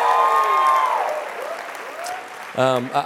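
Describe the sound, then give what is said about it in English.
A church audience applauds after being asked to make some noise, clapping that slowly fades while a held tone dies away, followed by a brief voice speaking at the end. “Let me hear you make some noise if you think Journey Church is a special church.”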